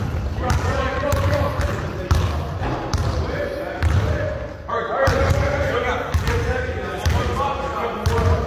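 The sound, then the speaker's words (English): Basketballs thump repeatedly on a hard floor at an elementary skills camp at Weatherford High School, many irregular overlapping bounces mixed with people's voices. “Those are the sounds of summer basketball camp going on at Weatherford High School as Eagles head basketball coach Derek Bull is hosting an elementary skills camp this week.”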